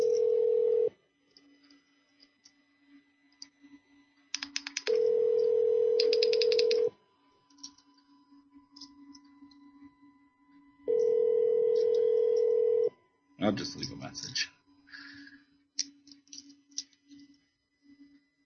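Telephone ringback tone while a call is placed back to someone, three long steady tone bursts separated by quiet gaps over a faint continuous hum, followed by a brief clattering burst near the end.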